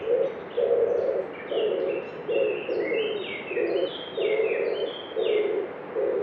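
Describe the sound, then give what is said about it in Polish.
Common wood pigeon cooing in a steady, rhythmic series of many low, hollow coos. Higher, thinner chirps from other birds sound over and between the phrases. “A oto grzywacz”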